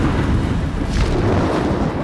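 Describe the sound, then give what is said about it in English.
Deafening crash of thunder, a dense, loud roar with heavy low rumble that holds steady throughout, a wash of noise without distinct separate booms. “With the deafening crash of thunder, it took off.”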